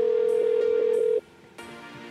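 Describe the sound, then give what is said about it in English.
A telephone call rings on the line to a toll-free number as a steady, mid-pitched tone with faint pulsing. The tone cuts off after about a second, leaving quiet line hiss. “Call that number there.”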